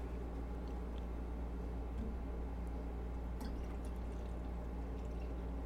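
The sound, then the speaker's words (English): Water running into a water bottle set high up on a desk platform, a quiet, steady pour with faint dripping textures and no pauses throughout. “Trying to fill up my water without overfilling it because it's high up on my desk.”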